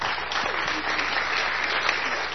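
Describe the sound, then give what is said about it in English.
Audience applause for a group of young helpers standing at the front. A continuous, even wash of clapping with a slightly muffled top end and no voices over it. “Can I have a round of applause for my happy helpers?”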